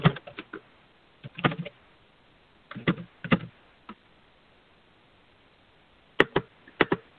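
Typing on a computer keyboard: short bursts of quick clicking keystrokes separated by stretches of quiet, with no talk.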